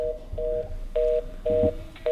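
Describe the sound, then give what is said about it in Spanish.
Repeated electronic beeps as a telephone call is cut off, a series of evenly spaced short tones of equal pitch with brief gaps between them, heard alone over faint line hiss. “se nos cortó la llamada con Álvaro Ramírez”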